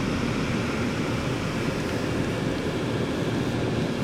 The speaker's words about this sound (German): Laut jetzt, ne? Ja, die Lüftung, die kann was.